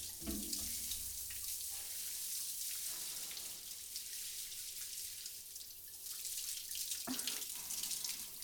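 Tap water runs steadily to rinse a person off while bathing, a continuous, even hiss with faint splashes and drips and no talking.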